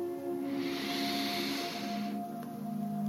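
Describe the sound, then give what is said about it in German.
One long, soft, airy deep breath lasting about two seconds, heard over a steady, quiet low musical drone during a guided morning meditation. “nimm hier noch einen tiefen Atemzug”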